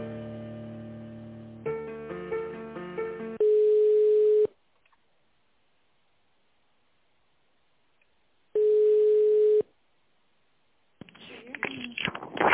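Telephone ringback tone plays while an office call is transferred to the chief accountant. A short stepped tonal melody comes first, then two long, steady, mid-pitched beeps separated by a few seconds of silence.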